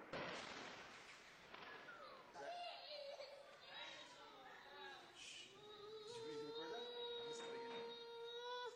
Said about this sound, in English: The sound of a Lebanese child being terrorized by Israeli bombing.